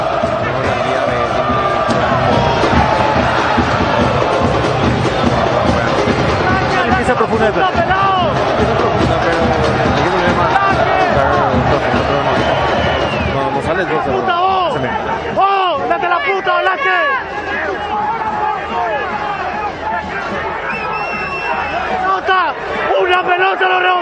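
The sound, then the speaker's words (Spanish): A football stadium crowd of angry, upset fans creates a dense, loud hubbub of shouting and chatter, with people talking throughout and occasional cheering rising from the steady roar of voices. “Escuchemos al público.”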